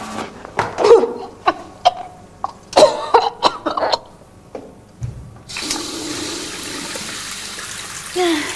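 Person vomiting into a bathroom sink: a string of harsh retching and coughing bursts, loud and irregular, followed by a steady rush of running water that continues to the end.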